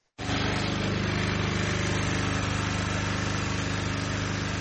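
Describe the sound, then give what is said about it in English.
A fuel-powered electricity generator runs in Bujumbura, kicking in abruptly and then holding a steady, loud droning hum with a low throbbing pulse, heard alone without voices. “Aha si mu ruganda canke ihinguriro, ni urwamo rw'imoteri itanga umuriro ikoresheje igitoro.”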